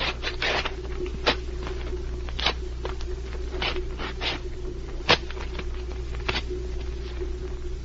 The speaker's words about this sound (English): Now, let's go over to this table, watch the papers as I tear them.